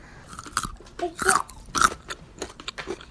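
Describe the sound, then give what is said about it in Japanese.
Crisp crunching of a raw carrot eaten as a vegetable stick, several sharp chewing crunches in an uneven rhythm, fairly faint and without talk. “この人参もね生のまんま野菜スティックでいただきます”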